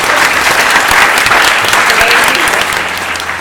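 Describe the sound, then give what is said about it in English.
Audience applause at a live panel discussion event: dense, steady clapping from a crowd that holds at full strength, then eases off slightly near the end. “Can we give a clap to Claire, Sinéad, Kate”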